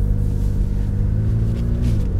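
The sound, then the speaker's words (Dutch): Steady, deep engine rumble from a McLaren 570S sports car with 570 horsepower, heard on board while driving a small road; dense low harmonics hold fairly even throughout, with a slight dip in pitch near the end and no talk. “Ja, aan boord van een McLaren 570S. En 570, dat staat natuurlijk voor het aantal pk's bij McLaren. 570 pk.”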